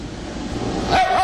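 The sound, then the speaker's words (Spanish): A dog barks, one of a series of different barks. A short, sharp bark rises out of a low murmur near the end of the brief moment. “Lo que estamos viendo acá son una seguidilla de diferentes ladridos”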